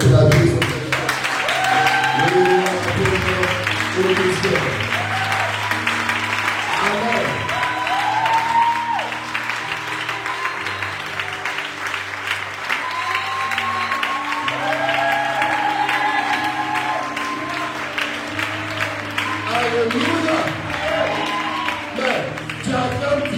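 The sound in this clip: A church audience applauds during a French-language worship service, with sustained rhythmic clapping and raised voices over it throughout.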